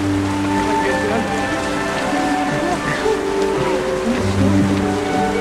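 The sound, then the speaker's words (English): Rain falls steadily outdoors as a continuous hiss, with sustained low tones running underneath at an even, fairly loud level. “It's rain. It's okay, it's fine. Nothing to be scared of.”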